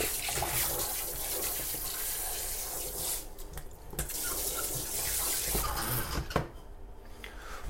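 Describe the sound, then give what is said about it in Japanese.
Water coming to a boil gives a steady, loud rushing hiss with bubbling texture that holds for several seconds and briefly dips twice, with no talking. “お湯が沸いてる”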